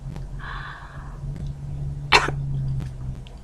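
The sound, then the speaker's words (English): Woman gagging: one short, harsh, cough-like throaty burst stands out over a steady low hum, faint and alone. “I gag for him and I hear his moan.”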